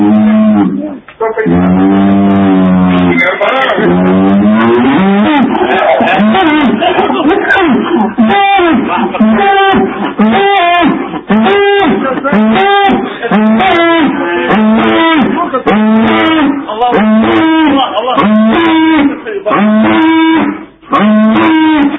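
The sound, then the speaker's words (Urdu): A cow mooing loudly and at length: drawn-out lowing at first, then many rapid, rhythmic pulsed calls that continue almost without a break. “یہ دیکھیے گائے بھی ذکر اللہ کر رہی ہے۔”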